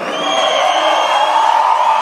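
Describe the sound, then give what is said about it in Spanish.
Audience cheering and whooping, a loud, sustained roar of many raised voices with no break. “que se siente ese aplauso”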